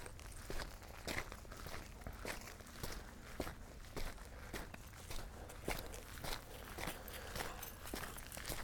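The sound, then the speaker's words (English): Footsteps of brisk walking on a flat road along the Leatherwood Creek Loop trail near Toccoa, Georgia. Faint, steady steps fall in an even, quick rhythm throughout, with no talking. “We're just going to do some pretty brisk walking so I can get my body temperature up. Because it's just a flat road right now,”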